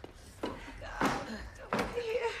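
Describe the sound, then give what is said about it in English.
A glass door being shut and sealed, heard as a few sharp, heavy thumps spread across a couple of seconds, mixed with other low rumbling noise. “They seal the glass door just in time.”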